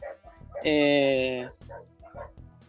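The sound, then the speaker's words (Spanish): A dog gives one long, loud, tonal bark or yelp, drawn out for close to a second, between stretches of a person talking. “Me ladran los perros acá. Váyanse, che, que estoy al aire.”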